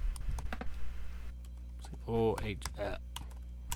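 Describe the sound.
Typing on a computer keyboard, with quick scattered clicks while a person talks over them.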